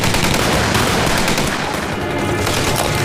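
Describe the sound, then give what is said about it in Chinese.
Sustained gunfire as a squad opens fire, a dense, continuous volley of overlapping shots that stays loud and unbroken for the whole clip. “别的队，开枪！”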